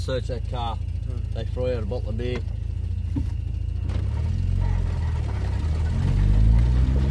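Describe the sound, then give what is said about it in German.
A car engine runs at full revs as the vehicle lurches and slides through sand. A voice talks over a low rumble at first, then the engine roar builds and grows louder toward the end. “Auf vollen Touren schlingern wir durch den Sand.”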